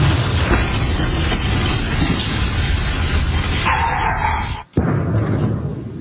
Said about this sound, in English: That was a massive sonic boom heard across the northeastern U.S. this afternoon.